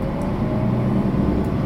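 Steady low rumble of a car driving along a road past a district office building, an even, continuous drone of engine and tyre noise with no distinct pass-by swell and no talk.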